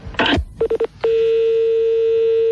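A telephone number being dialed on a touch-tone phone: a brief noisy rustle, then a quick run of several beeping tones, followed by a steady continuous tone that holds to the end.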